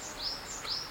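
Birds call in a primeval forest with a stand of giant tree ferns. A few faint, high, thin chirps sound over a soft background hiss.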